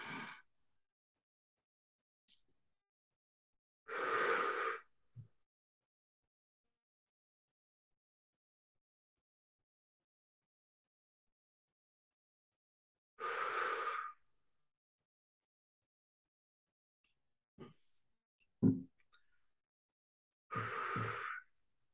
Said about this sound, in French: Et maintenant, prends trois grandes respirations.